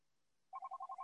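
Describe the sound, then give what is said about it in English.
A desk phone rings with a quick series of six short electronic tone pulses in a steady rhythm. The pulses start abruptly after a moment of near silence and are moderately loud. “my desk phone is ringing. And I can't just pick it up and hang up on that.”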